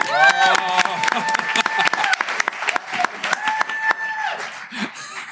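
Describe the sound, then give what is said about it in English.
An audience at a fintech event claps to welcome a guest. Sharp individual claps patter unevenly through the whole stretch, with voices and a little laughter mixed in. “Put your hands together for Niall Cameron.”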